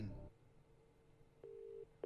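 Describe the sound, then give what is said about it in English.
Telephone keypad tones as someone calls a friend for help in a quiz game: after a quiet stretch, two clear, steady beeps sound, the first longer than the second. “I think I might have to phone a friend.”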